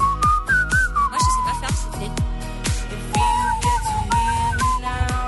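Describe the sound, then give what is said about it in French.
A person whistles along with a pop song. A thin, clear melody wavers above a thumping beat and backing music. “faut pas siffler devant le micro, faut siffler de côté, sinon ça fait.”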